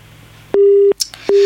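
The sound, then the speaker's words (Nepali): A telephone tone sounds after a caller's line disconnects during a call-in. It follows a faint hiss with a steady low beep, a short gap, then a second beep that runs to the end, loud and alone. “जसले hello भन्नुभयो उहाँको telephone सम्पर्क विच्छेद भएको छ।”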